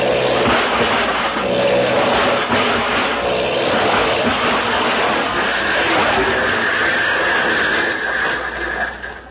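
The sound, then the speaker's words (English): Airplane sound effect of a plane swooping down to land in a front yard: a dense, loud engine roar that runs continuously, with a higher whine emerging partway through, before it tapers off at the end. “I'm right overhead. I'll swoop down and make a perfect landing in the front yard. Here I come.”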